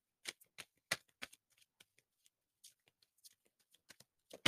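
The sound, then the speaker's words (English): Someone shuffles a deck of reading cards before pulling one. Soft, crisp snaps and riffles come in irregular bursts, some louder and others faint, against near silence. “We're going to pull a card very quickly.”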